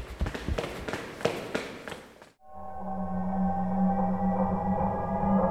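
Video game footsteps running down stairs, with rapid, even thuds for about two seconds before they cut off abruptly into a steady, humming drone.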